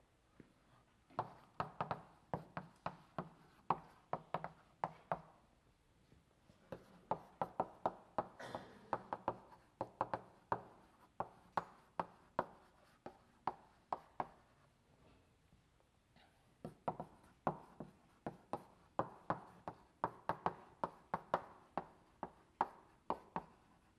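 Chalk taps and scrapes on a blackboard as a linked-list diagram is drawn during a lecture on hashing. Many sharp, faint clicks come in quick bursts separated by brief pauses, with no talking.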